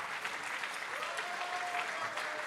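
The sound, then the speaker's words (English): A church audience claps its hands during a worship service, a quiet, dense and continuous patter of many hands that keeps an even level throughout. “Go ahead and praise the Lord. You know it says in the Word, clap your hands, all you people.”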